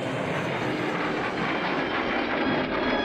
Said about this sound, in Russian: Слышишь? Друзья задирают головы к летящему самолету.